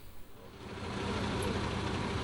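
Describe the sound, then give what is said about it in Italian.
A coach bus carrying a group of Alpini departs from the Foce area, its low engine rumble swelling after a brief uneven start and then holding as a steady, heavy drone. “Come potete vedere, il pullman in partenza.”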